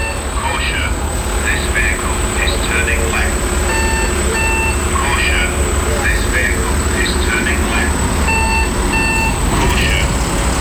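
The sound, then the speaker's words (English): A vehicle turning left plays a recorded spoken warning: a synthetic voice speaks over a loud, steady engine rumble, with short electronic beeps between the phrases. “have you noticed that vehicles now start to tell you things? Yeah, they did. And I was walking by and it started to tell me something. So I recorded it.”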